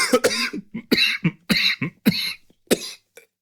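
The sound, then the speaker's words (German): Coughing fit after choking on something: a rapid series of many sharp, harsh coughs in uneven bursts with brief gaps, loud and alone, tapering into a few fainter coughs at the end. “Entschuldigung, ich habe mich total verschluckt.”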